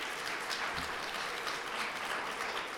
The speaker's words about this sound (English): is there applause for the increase in numbers, or thank God we've only had so few?